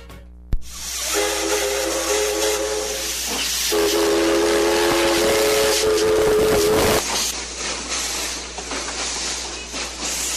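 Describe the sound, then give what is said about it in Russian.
A historic steam train on the Quito to Guayaquil line in Ecuador lets out loud steam with a sharp bang at the start. A sustained whistle tone runs through the hiss for several seconds, then the steady hissing carries on alone. “Окей, todo al bordo, all aboard, все по вагонам. Исторический поезд Рен Крусеро, который первый раз прошел от столицы Кито до Дугуякила,”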